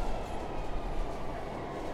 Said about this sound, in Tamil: Train போயிடுச்சு.